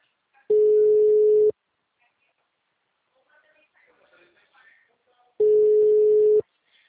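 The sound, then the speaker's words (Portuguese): Ringback tone of an unanswered phone call: two steady beeps of the same mid pitch, each about one second long, separated by roughly four seconds of near silence with faint scattered noise. “Tô ligando, mas não atende.”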